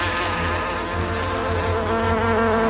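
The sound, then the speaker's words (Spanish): Two wasps buzzing as a radio-drama sound effect: a dense, loud, continuous droning buzz that holds steady throughout, with no voices. “En Brobdingnag, las dos avispas le atacan desde el aire.”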